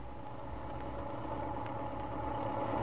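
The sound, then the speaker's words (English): A car motor runs after a carburetor adjustment, a steady low rumble with an even mid-range hum that holds unchanged throughout, with no voices. “That motor certainly works a lot better since I adjusted the carburetor.”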